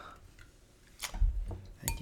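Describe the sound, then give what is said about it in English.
A Mountain Dew soda can is cracked open next to a microphone: a couple of sharp, fairly faint snaps, each followed by a short fizzing hiss. “All right, now we're going for the old redneck's favorite, Mountain Dew. Crack that in the microphone.”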